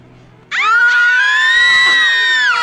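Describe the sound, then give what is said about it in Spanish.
A woman's single scream bursts in suddenly after a faint lead-in and holds a high, shrill, steady pitch for about two seconds, loud and alone. “Ah, la mujer gritó.”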